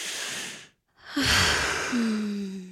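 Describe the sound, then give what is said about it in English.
A person takes a deep breath: a breathy inhale, a brief silent pause, then a long, fuller exhale carrying a low voiced sigh that trails off. “I'd like to take a deep breath for you.”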